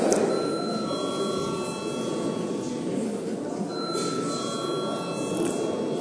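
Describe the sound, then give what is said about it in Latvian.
An electric bell rung to call members to register in a parliamentary session gives a continuous, harsh, buzzing ring that holds steady and loud for about six seconds. “Lūdzu, zvanu reģistrācijai.”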